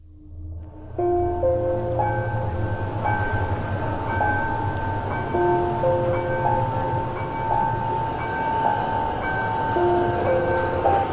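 A train at the old Aedo station, where the Roca and Sarmiento lines fork, rumbles steadily for about eleven seconds, with sustained tonal notes like a horn chord shifting above the broad noise.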